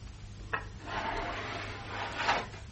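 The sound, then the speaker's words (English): A window being opened in a house: a faint wooden rubbing and scraping that slides along for about two seconds, starting with a soft knock and ending in a slightly brighter scrape. “You open the window.”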